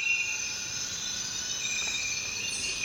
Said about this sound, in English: There's so much insect activity there. And all the insects that are vocalizing each have their own little space on the frequency spectrum.